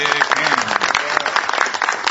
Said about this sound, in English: So let's everybody give him a round of applause.